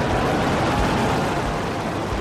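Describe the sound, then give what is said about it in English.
Deep, steady roar of a SpaceX Starship rocket test launch, a loud and dense rumbling wall of noise that holds without a break throughout. “Elon Musk hails the latest test launch of his giant Starship rocket as a success, even though it ends in an explosion.”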